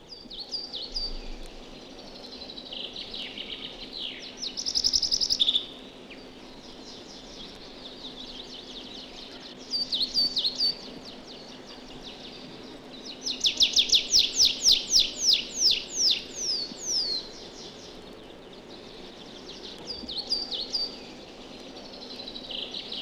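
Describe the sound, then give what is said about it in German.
High, thin, sharp calls of a coal tit alongside the long, segmented song of a tree pipit. Short high chirps come scattered over a faint steady hiss, and a run of rapidly repeated notes swells in the middle. “Die Rufe klingen spitzer und höher wie Witze, Witze, Witze. Dieses pendelnde Motiv hören wir neben dem gegliederten langen Gesang eines Baumpipers.”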